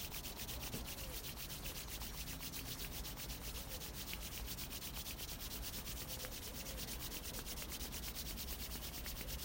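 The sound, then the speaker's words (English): Hands rub briskly together to warm them: a soft, steady friction hiss that continues unbroken for the whole stretch, with no voices. “As we rub our hands, nice and warm,”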